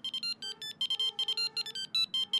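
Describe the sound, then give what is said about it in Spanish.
A mobile phone rings with an electronic ringtone of rapid, high-pitched beeps in short bursts, repeating in a quick, steady pattern at moderate volume with no talk. “Oh, no, es el móvil de mamá.”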